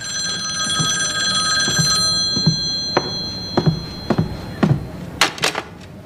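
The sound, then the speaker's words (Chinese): A telephone rings with a bright, steady electronic tone layered over several pitches for about two seconds, then falls silent. A series of sharp clicks and taps follows, with no voices. “稍等一下，我先去接个电话。”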